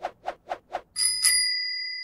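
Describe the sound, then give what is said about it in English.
A bicycle bell gives four quick, bright dings, then a louder ring struck twice that hangs on and slowly fades in a clear metallic tone. “Let's get to it after the bike bell.”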